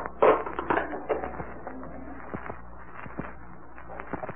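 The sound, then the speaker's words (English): A lid pried off a mummy case, starting with a cluster of loud cracks and creaks that thin into scattered sharp clicks and snaps. “All right, boys, pry off that lid.”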